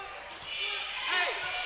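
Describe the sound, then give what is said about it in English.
A basketball is dribbled on a court during a game, its low bounces steady and muffled beneath a commentator's continuous talk. “Neely's just dribbling down up near the half-court stripe.”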